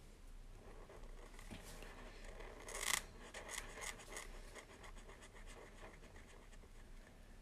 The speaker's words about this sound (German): Nee, ich, ich, ich schreibe da nichts hin, ich mal da nur was hin. Und ich zeichne er, eher gesagt.